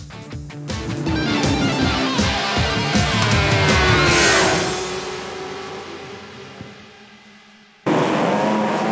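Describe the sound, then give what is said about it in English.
Racing motorcycles, including Ducatis and Valentino Rossi's bike, roar at the start of the 2004 MotoGP race at Brno, Czech Republic. The dense engine noise shifts in pitch, fades gradually, cuts off briefly, then returns abruptly at full strength. “Czech Republic in Brno gave us one of the best races of 2003. Will it deliver in 2004? Givinau and Rossi once again head-to-head. Not the best of starts for Rossi there, although he's got the inside line, but it's one of the Ducatis round the outside.”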